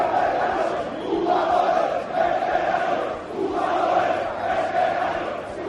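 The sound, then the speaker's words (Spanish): Valencia football supporters chant in protest outside the Mestalla stadium, a large crowd roaring in rhythmic swells that rise and fall with each repeated chant phrase. “Ha recogido Hugo Ballester lo que ha pasado en los exteriores de Mestalla. Este es el sonido de la afición del Valencia.”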